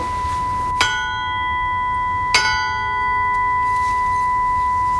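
A steel tube struck twice, each hit a sharp metallic clang that blooms into long, steady bell-like overtones; the second strike comes about one and a half seconds after the first, and its clear ringing tone sustains to the end without voices.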